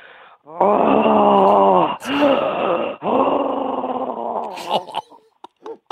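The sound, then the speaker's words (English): Heavy, groaning breaths from a caller over a phone line in a phone-in contest for concert tickets: three long, husky, voiced moans in a row, loud and thin-sounding, followed by a few faint clicks. “You're going to have to breathe, mate.”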